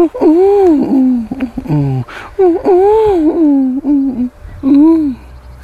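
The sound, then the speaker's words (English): A person imitates a pigeon's courting coo: several loud, wavering hooting phrases that swoop up and down in pitch, separated by short pauses. “That was my impression of a horny pigeon.”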